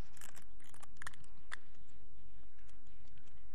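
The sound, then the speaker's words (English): A clear plastic layer is peeled off a communion wafer, making a crisp crinkling crackle of small, sharp ticks and rustles that come in an uneven cluster and then thin out. “I invite you to peel that clear layer of plastic off.”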